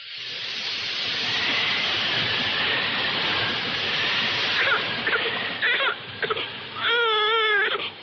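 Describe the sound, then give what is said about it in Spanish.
A baby girl cries in a steady, strained wail that then breaks into choppy, wavering sobs with a trembling pitch toward the end. “¿Qué le pasa a la niña? Está bien. Ahora dejará de llorar.”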